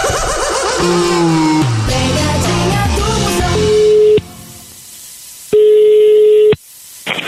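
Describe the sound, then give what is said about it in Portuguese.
A telephone call is being dialed: two long, steady ringing tones, separated by a pause, follow a few seconds of busier tonal sound. “Ei, vamos ligar, ver se pega.”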